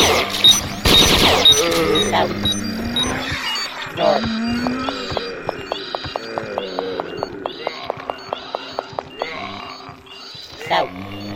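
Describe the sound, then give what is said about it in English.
Automatic bolt gun fire in a video game, a long run of many sharp, evenly spaced shots in a steady rhythm, preceded by a loud burst of other game noise and talk. “I'm still gonna have to spend some ammo. Automatic bolt gun.”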